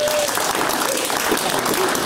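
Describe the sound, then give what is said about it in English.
A big round of audience applause: a loud, continuous wash of many hands clapping that holds steady throughout. “Let's have a big round of applause,”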